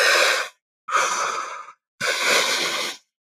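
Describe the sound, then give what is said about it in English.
Three breathy mouth breaths in the tri-active breathing pattern: two inhales, into the belly then up into the chest, followed by one exhale out through the mouth, each about a second long and separated by short silences. “my favorite one to do is called the tri-active breath. So that breath is into the belly, up into the chest, out through the mouth. So it's all through the mouth. So it's two in, one out.”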